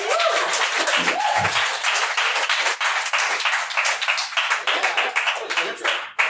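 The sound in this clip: Applause and clapping from an audience welcoming a storyteller. Dense, even clapping fills most of the stretch and thins out toward the end into more separate, distinct claps.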